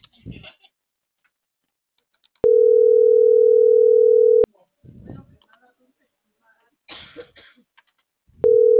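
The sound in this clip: A telephone dialling tone sounds as one steady, unbroken tone for about two seconds, then starts again at the very end and is cut off. Brief coughing and throat-clearing noises fall in the gap between the two tones.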